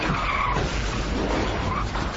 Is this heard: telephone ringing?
no